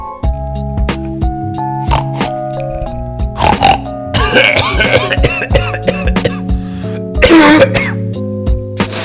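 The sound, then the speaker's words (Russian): Coughing and throat clearing from someone with an unwell voice: harsh, loud bursts that cluster in the middle and again near the end, over a steady tonal background. “Я даже кашляю немного.”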